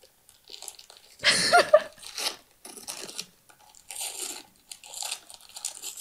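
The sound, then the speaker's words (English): Presents being unwrapped, with paper tearing and crinkling: a loud ripping burst early on, then many shorter, crisp rustles and tears broken by brief pauses. “Unwrapping presents. That's what it was. Oh, that's what that's unwrapping presents.”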